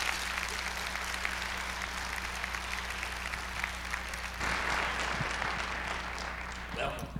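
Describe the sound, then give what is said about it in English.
Applause from a church audience welcoming a guest speaker and musician: steady, dense clapping that fills the whole stretch at an even level, with a low electrical hum beneath it. “Let's all put our hands together and welcome Jimmy Bratcher this morning.”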